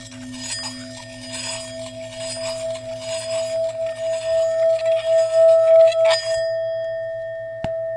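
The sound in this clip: Three singing bowls cast from seven blended metals ring together, sustaining a rich chord of several notes that swells steadily in volume before dying out, followed by one sharp metallic strike.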